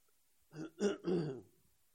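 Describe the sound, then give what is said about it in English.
Throat clearing: a few short, rough, guttural bursts that grow slightly louder, fairly faint and heard alone. “Gotta get that thing out of my throat.”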